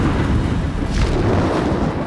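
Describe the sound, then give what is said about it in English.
Deafening thunderous crash as a giant feathered thunderbird spreads its wings and takes off, a loud, dense rumble sustained for about two seconds with no voices. “With the deafening crash of thunder, it took off.”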